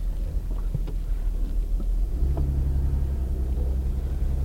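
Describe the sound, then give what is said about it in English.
Low engine rumble inside a vintage Nissan car on a drive from the Nissan Design Center in La Jolla, California, picked up from the driver's lap; a deeper steady hum grows stronger after about two seconds, with faint knocks above it. “we just talked our ways into driving the Nissan. So We're at the Nissan Design Center in La Jolla, California. And I'm going to put the microphone here in my lap, and we're going to take a ride.”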